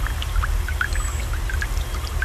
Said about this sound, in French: Ce doux bruit d'un cours d'eau qui s'amenuise